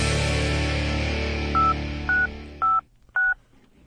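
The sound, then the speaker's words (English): Telephone keypad dialing tones: four short, clear beeps in an uneven rhythm, each a steady two-note tone, sounding as a sustained musical tone fades out beneath the first three. “Wait, I gotta call somebody. That's right, baby. I dial numbers and music happens.”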